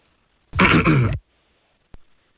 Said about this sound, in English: This is the first throat clear.